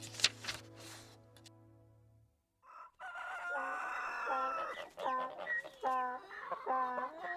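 A rooster crows several times in quick succession, with loud, strained, harmonic calls rising and falling. A short, different burst of sound and a moment of silence come before it.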